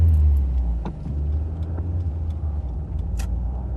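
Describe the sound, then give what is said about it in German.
Car engine rumbling at speed, a low, steady drone that fills the whole clip, with faint scattered clicks on top. “Fahr nicht so schnell.”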